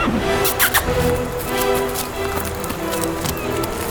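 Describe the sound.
A horse neighs with high, squealing whinny calls over a steady, dense noisy background.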